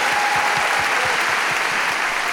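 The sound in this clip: Audience applause congratulating teams at a live science movie quiz in a university auditorium: thick, sustained clapping that stays loud and steady throughout, with no voices over it.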